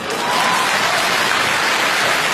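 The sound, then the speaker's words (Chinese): Thunderous applause from a dance troupe's members: a dense, continuous wash of clapping, loud and steady for the whole stretch, with no voices standing out. “但掌声雷鸣。”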